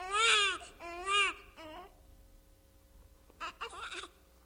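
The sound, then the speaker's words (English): A newborn baby cries in loud, wavering wails, two long cries followed by a shorter one, then a pause and a few softer, briefer sobs. “A newborn baby's cry?”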